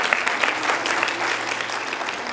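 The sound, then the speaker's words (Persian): Steady applause from a church audience after a sermon: a dense, even clatter of many clapping hands that holds at a constant level throughout, with no voices on top. “برای خودتون یه دست بزنید.”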